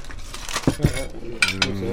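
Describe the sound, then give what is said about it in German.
Plates being cleared from a table clink against cutlery and each other in a few short, bright chinks and knocks over a soft rustling background. “Darf ich die, die Teller schon mal abräumen?”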